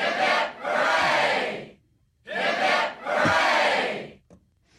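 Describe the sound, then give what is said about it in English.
A crowd gives cheers for Vietnam veterans and serving members of the armed forces, shouting together in two long bursts, each a short call followed by a longer, swelling shout, with silence between. “But today's three cheers are for all of our Vietnam veterans and all serving members of the armed forces, for that matter.”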